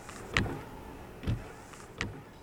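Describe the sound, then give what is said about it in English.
Car windshield wipers keep running after being switched off, sweeping three times in slow, uneven succession with soft whooshing scrapes over a faint steady background. “I can't help but give a loving chuckle every time the windshield wipers decide to stay on for 10 minutes after I've shut them off. Those are my windshield wipers.”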